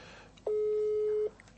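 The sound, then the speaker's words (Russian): A single steady electronic telephone tone sounds during a call that will not go through. It is one flat, mid-pitched beep lasting under a second, heard alone over faint background noise. “Набираю, что-то не набирается.”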